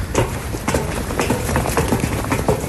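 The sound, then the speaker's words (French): Footsteps descending stairs at a bunker site: a quick, uneven run of many hard thuds and scuffs, loud over a constant rough background noise. “Donc là, on descend des escaliers.”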